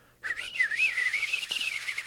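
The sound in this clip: A person whistles an imitation of a bird call: after a brief silence, a bright, warbling whistle begins, wavering up and down in quick trills and continuing steadily to the end, with one short click partway through.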